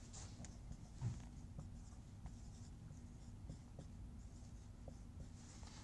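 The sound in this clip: Writing on a board while working through linear and rotational vector equations: faint, irregular scratchy strokes with a slightly louder tap near the start, with no voices.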